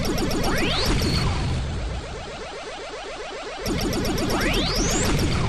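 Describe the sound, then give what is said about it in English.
Electronic laser shots fired by enemies in a video game: a loud, dense stream of rapid, repeating descending zaps, broken by two longer rising sweeps, briefly thinning in the middle before returning at full strength. “And they shoot lasers.”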